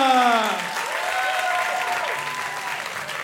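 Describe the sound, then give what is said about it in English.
Live audience applause welcoming guests onto a comedy stage, a dense, steady burst of clapping that holds at an even level for about three seconds. “Let's have a hand for Senior Abuelito.”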